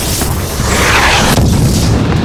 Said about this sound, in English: The sky lit up with flames of red and orange as the missile Griggs fired at the guardhouse hit home.